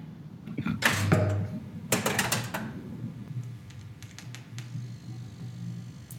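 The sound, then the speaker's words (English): A pinball machine firing up, with two bursts of rapid mechanical clattering followed by lighter scattered clicks and ticks. “That's the sound of a pinball machine firing up.”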